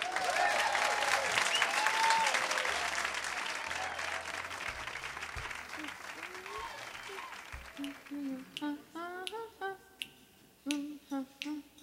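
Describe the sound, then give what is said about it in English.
Audience applause welcoming a singer on stage at the Blues Alley club. Dense clapping gradually thins and fades, then music and singing begin. “Let's give a big Blues Alley welcome to Miss Eva Cassidy.”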